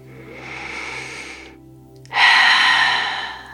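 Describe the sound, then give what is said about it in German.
Deep, slow breathing during a guided relaxation exercise: two long, airy breaths separated by a short pause, the second louder and fuller than the first, with no talking. “Dann lass einfach deine Atemzüge wieder tiefer werden.”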